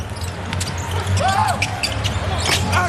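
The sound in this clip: A basketball being dribbled during an NBA game between the Lakers and the Rockets, heard as repeated thuds under steady crowd noise.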